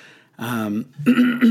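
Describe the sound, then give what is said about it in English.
A cough or throat clearing from someone during a sports talk show, heard as two short, rough voiced bursts with a brief gap between them. “I need to put on a cough button here”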